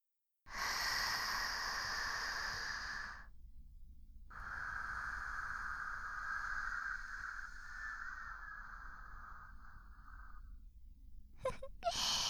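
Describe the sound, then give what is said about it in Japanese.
Slow deep breathing: one long inhale of about three seconds, a brief pause, then a long, steady exhale of around six seconds, faint and without speech. “だから深呼吸してみよう。”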